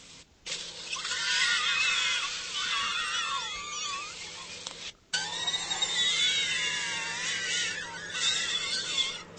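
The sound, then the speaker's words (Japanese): Konjac balls squeezed by hand give out high, wavering squeaks like shrill screams. The squeals come in two long stretches of twisting, whiny pitch, broken by a brief silent gap midway. “ロイターにも取り上げられ、日本の悲鳴を上げる食品玉こんにゃくとして紹介されているんです。そこで実際にやってみたところ、”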